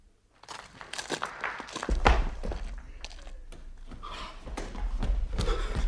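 Footsteps of someone walking away, a string of uneven crunching scuffs and dull thuds that grow busier and heavier toward the end.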